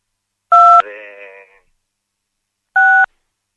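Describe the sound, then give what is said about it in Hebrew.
Telephone keypad buttons pressed during a call, giving two short, steady dual-pitched dialing beeps about two seconds apart, with a brief voiced sound trailing the first tone. “נשמע שאתה לוחץ על כפתורי הטלפון.”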